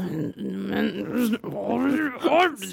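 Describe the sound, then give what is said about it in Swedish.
Inside an office, a person imitates a growl: a low, strained, voiced rumble that wavers and swells across nearly three seconds with a few brief breaks, growing harsher near the end. “började sakta men säkert morra inne på kontoret”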